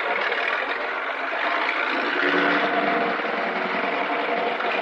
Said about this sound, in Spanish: Miguel observa por la ventana cómo se marcha el camión de la competencia.